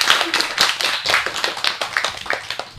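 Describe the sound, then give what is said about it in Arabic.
Applause from a group called for by a host: many quick, irregular hand claps overlapping in a lively, fairly loud patter, with no talking. “تصفيقة تصفيقة كبيرة عليكم.”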